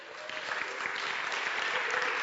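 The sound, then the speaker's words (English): A crowd applauds, a thick, continuous patter of many hands clapping that stays at an even level from start to finish. “Round of applause for that, please.”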